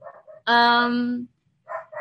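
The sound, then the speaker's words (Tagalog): Dogs barking outside: a few short, high barks and one longer, drawn-out tonal bark, with brief silences between them. “Narinig niyo naman yung mga aso sa labas.”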